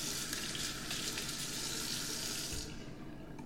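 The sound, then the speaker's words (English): Water runs steadily from a tap while hair is washed with hibiscus and coconut shampoo, a constant splashing rush that thins and drops away near the end. “Then she washes my hair. Hibiscus and coconut shampoo.”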